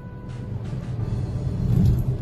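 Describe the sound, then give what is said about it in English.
Car engine rumble while driving, a low, continuous drone with uneven swells and faint hiss above it, growing slightly louder toward the end. “And yeah, I'm driving.”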